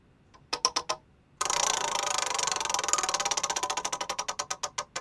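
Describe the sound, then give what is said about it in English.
A prize wheel is spun: a few sharp clicks, then a fast stream of many ratcheting ticks that gradually spread out and slow as the wheel loses speed. “And we'll see if our completely not rigged wheel ever lands there. But for now, let's give this bad boy a spin.”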